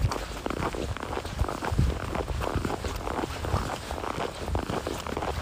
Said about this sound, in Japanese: さすがに-9度まで下がると雪がキュッとしますね。